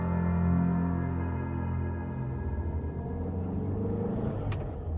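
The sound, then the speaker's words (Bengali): A car engine rumbles steadily as the car travels along a road from Rudraprayag beside the Alaknanda river, a low droning hum that holds throughout with slight wavering and a brief faint tick near the end. “আমাদের গাড়ি রুদ্রপ্রয়াগ থেকে রওনা হয়ে অলোকানন্দার পাশ দিয়ে কিছু দূর গিয়ে হঠাৎ একটা টানেলে ঢুকে পড়ল।”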